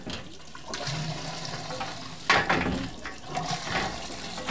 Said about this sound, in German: wohin fließt eigentlich all das Wasser?